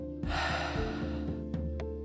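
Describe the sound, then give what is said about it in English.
Breathing in and out during a relaxation cue: a long, airy rush of breath over a soft, steady tonal backing, with a few faint clicks near the end. “Now, breathe in. Breathe out.”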